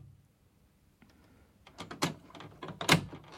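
A door being opened on an upper floor of an 18th-century building, staged as a dramatized scene: faint rattling clicks and handling knocks that grow sharper toward the end, quiet overall, with no voices.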